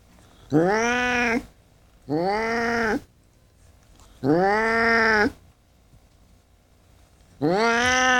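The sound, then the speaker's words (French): A cat meows four times, each call long, loud and tonal with a rising then falling contour, separated by short quiet pauses. “Ça, c'est le chat de Morgan, je crois.”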